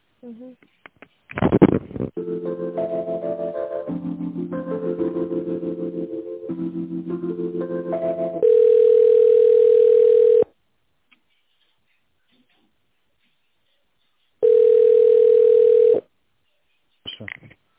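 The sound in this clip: Telephone ringback tone heard while a call is being transferred: two long, steady, mid-pitched tones separated by a few seconds of silence, with tonal sound before them.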